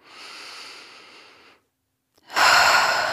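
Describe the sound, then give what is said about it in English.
Deep breathing in and out during a guided meditation: a long airy breath, a brief silence, then a second, louder and rougher breath. “Fill your lungs with nourishing air.”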